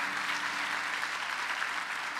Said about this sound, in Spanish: Si le va a dar un aplauso al Señor, dérselo de verdad.